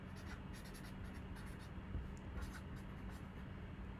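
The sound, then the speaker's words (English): A Sharpie marker writing notes: a run of faint, scratchy strokes in an uneven rhythm over a steady low hum, with no talk. “Damn pen went out. I had to grab a damn sharpie. There you go. Let be able to write myself notes”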